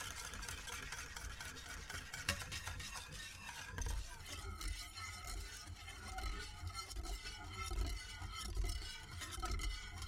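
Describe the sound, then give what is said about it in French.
Soup is stirred in a pot during its preparation in Slovenia. A faint, continuous scraping and stirring runs throughout, with a soft sizzling wash and occasional small clinks. “Comment, en Slovénie, on prépare la soupe ?”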